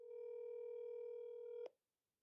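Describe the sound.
A telephone rings on an outgoing call: one steady, even electronic tone holds for about a second and a half, then cuts off into near silence.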